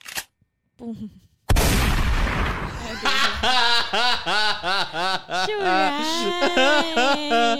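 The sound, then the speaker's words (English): One loud, sharp shotgun blast sound effect booms and decays, followed by people talking. “Yeah, for those who didn't get the joke, that was a shotgun.”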